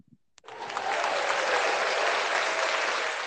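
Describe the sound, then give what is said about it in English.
Canned applause sound effect fired from a button: a brief click, then a dense crowd clapping swells up quickly and holds steady until the end. “Can we get a round of applause? Intern, hit that yellow button.”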